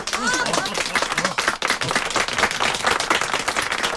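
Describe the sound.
Audience applause welcoming a speaker, many hands clapping densely and evenly for about four seconds, with a brief dip midway before it swells again.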